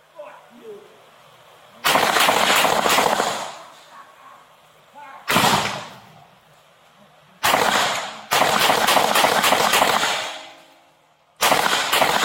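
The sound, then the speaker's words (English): Gunshots fired during a police confrontation, several loud, harsh bursts of rapid fire separated by short pauses, with people talking in the quieter gaps between them. “shots fired”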